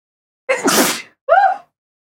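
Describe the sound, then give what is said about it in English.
A single human sneeze: a sharp, breathy burst followed by a short, voiced, higher-pitched tail, loud and alone with silence on either side. “I'm going to sneeze.”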